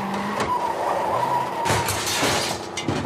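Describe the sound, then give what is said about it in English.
A heavy crawler vehicle grinds as it steers hard in a tunnel: a constant mechanical rumble with shifting whining tones and a few sharp clanking hits. “Entering the tunnel, Calamity is forced to turn the steering wheel hard to the right to straighten the vehicle.”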